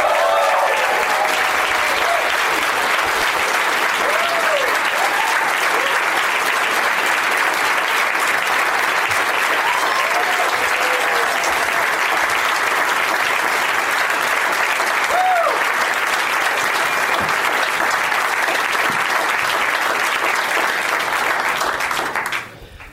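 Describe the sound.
Loud, sustained audience applause greets three stand-up comedians at a comedy show. Thick, unbroken clapping carries on for over twenty seconds, with voices rising through it here and there, before stopping sharply at the end.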